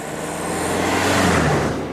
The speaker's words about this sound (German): Fahrzeug 2, go! Und das ist ein Benzinauto.